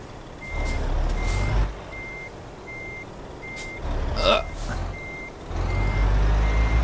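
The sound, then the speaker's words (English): A reversing truck sounds its backup alarm: a steady series of evenly spaced beeps at one pitch over a low engine rumble, with a short hissing burst midway through. “I have to drive forwards and backwards for a few seconds.”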